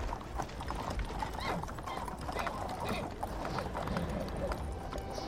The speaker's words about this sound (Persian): عبدالله به تندی افسار اسب را کشید و به سمت انس به راه افتاد.